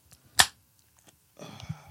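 A fresh can of Two Hearted ale cracks open with one sharp snap, then after a short pause a soft fizzing hiss of escaping carbonation follows.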